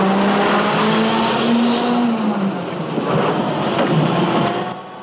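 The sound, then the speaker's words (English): Engines roar as a tank bearing Iron Cross insignia and an open-top armored vehicle full of men move off at night: a loud, continuous rumble with a steady droning tone that dips partway through, easing slightly at the end. “soldiers jump on board a tank bearing the insignia of the Iron Cross. Behind the tank is an open-top armored vehicle full of men. The two vehicles roar off into the night.”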